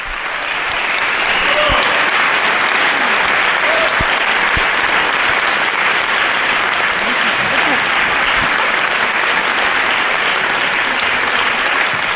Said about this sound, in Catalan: en l'església de Sant Miquel de Cuixà, plena vessar, el concert ha estat un èxit que s'ha acabat per les aclamacions del públic.